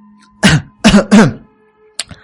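A person gives dry, throaty coughs that edge toward throat clearing. There are a few rough, voiced bursts, two of them close together, then a brief pause and a short final one.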